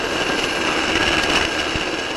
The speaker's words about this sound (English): You may be able to hear the helicopter warming up in the background.